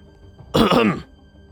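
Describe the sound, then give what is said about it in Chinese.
A man coughs once: a short, throaty burst of about half a second that stands out loudly against a quiet background, with no talk around it. “武素咳嗽了一声”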